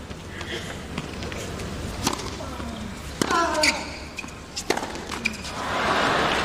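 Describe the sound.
Tennis second serve in a match, the racket striking the ball in a few sharp, hollow thwacks spread across a few seconds, standing out over a steady background murmur with some voices.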